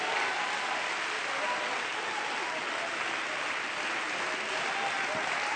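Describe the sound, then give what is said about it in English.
A crowd applauds at a religious revival gathering, a continuous, even wash of clapping that stays loud and sustained without pause for the whole stretch. “You got to put your hands together.”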